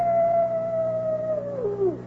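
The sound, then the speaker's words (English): A coyote howls once on a moonlit night, a single loud, long, sustained note that holds its pitch, then drops sharply at the end. “Hey, you know what that coyote's howling about? He just calling for his lady friend.”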